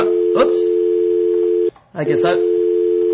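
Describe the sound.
Telephone dial tone on the line after a caller hangs up: a steady, mid-pitched continuous hum, briefly cut out near the middle, while a voice talks over it.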